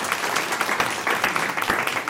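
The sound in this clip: An audience applauds a guest with dense, steady clapping that stays loud and even for about two seconds, with no voices standing out.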